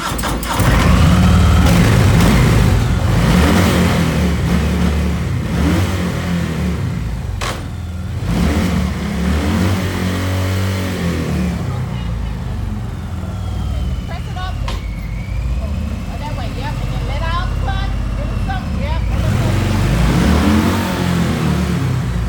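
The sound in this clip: A manual car's engine revs, climbing and dropping repeatedly as the novice driver works through the gears and pops the clutch once. The engine noise stays loud throughout, with people talking over it.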